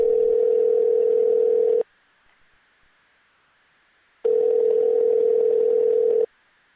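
Telephone ringing tone heard while calling someone: two steady, buzzy tones of about two seconds each, separated by roughly two and a half seconds of silence.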